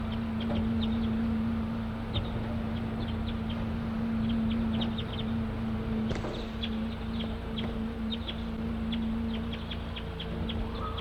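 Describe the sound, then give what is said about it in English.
A flock of wild crossbills calls in many short, high chirps scattered throughout, over a steady low hum. “The recording of Flock of Wild Crossbills just came in.”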